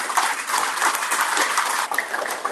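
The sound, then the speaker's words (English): Round of applause from an audience for a guest praised as an honest man in the boating industry: dense, steady clapping that stays at an even, fairly loud level throughout. “Wayne Libera, give him a round of applause.”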